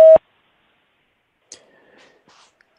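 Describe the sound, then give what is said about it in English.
An answering machine message tone sounds as a single short, loud, steady beep, followed by near silence with a few faint clicks. “Leave your message at the tone. Press pound when finished.”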